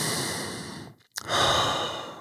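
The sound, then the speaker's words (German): Deep breaths during a guided meditation: a breathy rush of air, then a brief silent pause before another fuller breath that fades slowly. “Und einfach mal zwei, drei tiefe Atemzüge macht. Und Nochmal tief durch.”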